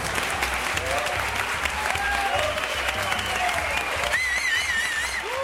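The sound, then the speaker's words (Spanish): Audience applause fills the room in a steady, dense wash of clapping that holds at the same level throughout, with some voices rising over it. “Otro aplauso para un habitual nuestro”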